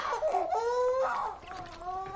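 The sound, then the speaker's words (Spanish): A sick five-month-old baby cries in a few drawn-out, wavering wails with brief catches of breath between them, thin and tonal, with no other voices. “No soporto oírla llorar así.”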